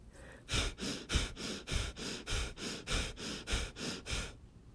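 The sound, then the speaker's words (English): Rapid, forceful breathing of a breath-of-fire exercise, with many short, pumping, hissing breaths in a steady fast rhythm of roughly three per second, with no talk. “Your arms are going up with the exhale, down with the inhale. Up is exhale, down is inhale.”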